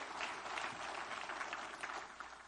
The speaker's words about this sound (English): Give the Lord a good clap off, would you?